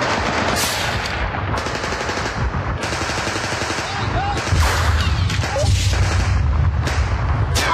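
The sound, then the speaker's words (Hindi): Automatic rifle and grenade fire during an attack on an army post: dense, loud, continuous rapid gunfire bursts with no let-up, growing heavier and deeper toward the end. “एक तरफ automatic rifles और grenade से हमले हुए”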